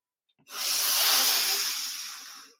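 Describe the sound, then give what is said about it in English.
One deep breath during a guided breathing exercise, heard as a loud, airy hiss that swells and slowly fades, with no voice over it. “Deep breath in. Deep breath out. Juicy breath in.”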